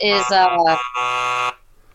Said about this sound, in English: Hit the timer since you don't know it right.